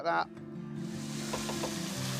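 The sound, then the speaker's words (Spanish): Sizzling of chopped giant parsley heads, dipped before frying, in a pan. A brief louder sound comes first, then a steady, hissing sizzle holds at an even level to the end. “Hoy Christian nos muestra lo versátil que es el perejil gigante. Los voy a picar y freír. Y antes voy a mojar las cabezas en eso.”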